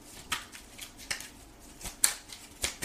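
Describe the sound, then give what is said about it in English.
Tarot cards knocked from a deck make a few soft, dry clicks and flicks, quiet and spaced unevenly across the moment, with no voices. “This is, this fell out. Wow. Yeah. I accidentally knocked the second card out.”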